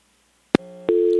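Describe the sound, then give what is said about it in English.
A telephone line fault produces a busy signal: a sharp click, then a steady electronic tone that jumps louder and holds to the end. “Uh-oh. I think we got hit with that phone line issue.”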